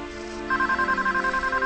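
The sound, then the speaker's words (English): A telephone rings in a kitchen. After a brief softer start, a rapid warbling electronic trill pulses evenly and steadily. “walks across the kitchen to answer the phone”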